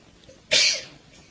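One sharp, explosive sneeze bursts out over quiet background and fades quickly.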